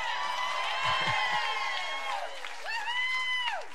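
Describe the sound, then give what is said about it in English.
A live audience at a show at the New Parish cheers and applauds, a continuous wash of crowd noise and whoops beneath a loud, shouting voice. “Give it up for the beautiful people in this room right now, yourselves! Give it up for freedom as long as it lasts!”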